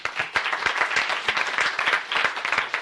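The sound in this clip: Applause from a legislative gallery welcoming guests, many people clapping in a brisk, steady patter at moderate loudness with no voices over it.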